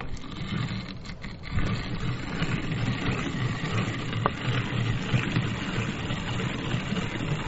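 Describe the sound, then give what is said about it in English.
A hand-cranked grain mill grinds grain for brewing beer, producing a continuous, fairly loud crunching rumble that stays steady throughout. “So let's get it into the grain mill.”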